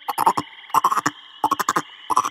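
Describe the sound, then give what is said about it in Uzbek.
A frog croaks in four quick bursts, each a rapid string of rasping, pulsing clicks, with short pauses between the groups. “Sichqon burilib qarasa, nilufargul bargi ustida bir baqa suzib kelayotgan emish.”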